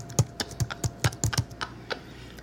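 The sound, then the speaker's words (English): Typing out a text message gives a quick, irregular run of crisp, light key clicks, each a short tap, with no voices. “Like the sound you hear when you're typing the text out.”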